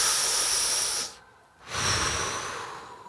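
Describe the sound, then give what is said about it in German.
A long, exaggerated breathy exhale imitating someone smoking a cigarette: two sustained airy hisses split by a brief quiet pause, fairly loud and with no talk. “Zigaretten so, puh, Alter, wie so ein Meterstab einfach. Und immer so ganz viel zu lange einatmen und viel zu lange ausatmen.”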